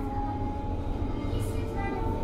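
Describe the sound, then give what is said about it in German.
An S-Bahn suburban train at Lichterfelde West station in Berlin-Zehlendorf, heard as a steady, dense, low rumble with mechanical hum that holds at an even loudness throughout. “Nächste Station, Lichterfelde West. Die S-Bahn-Station Lichterfelde West in Berlin-Zehlendorf.”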